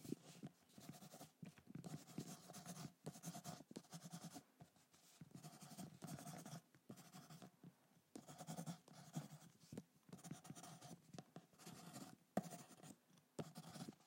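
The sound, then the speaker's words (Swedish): Pen scratching on paper as someone writes a note in a secondhand shop, a faint run of many short, dry strokes in uneven bursts with brief pauses between them. “Vänta, jag ska bara skriva klart här.”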